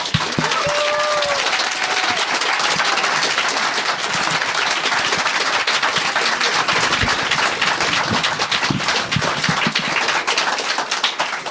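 Audience applause welcoming author Juan F. Thompson at a book reading event, a loud, dense and steady wash of clapping that continues without a break from start to finish.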